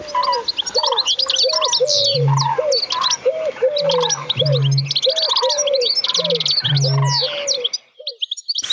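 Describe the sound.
Mixed bird song with a bittern's deep, dull booming call. A dense chorus of high chirps and warbling phrases runs over repeated mid-pitched calls, with a few low, hollow booms recurring before the sound cuts off near the end.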